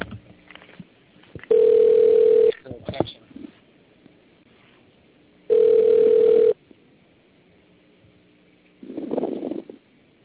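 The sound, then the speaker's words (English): An outgoing telephone call rings on the line: two steady ring tones about a second long, separated by a few seconds of low line noise and light clicks, with a short muffled burst near the end. “But we're going to call Antonio's publicity lady here.”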